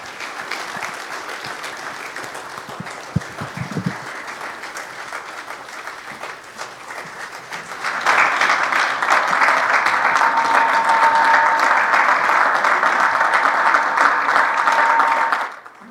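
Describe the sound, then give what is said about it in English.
An audience applauds as a speaker is introduced, with steady clapping that jumps noticeably louder about halfway through, holds at that level, then stops abruptly at the end. “I also want you to put your hands together for one of your elders, Brian Mashburn.”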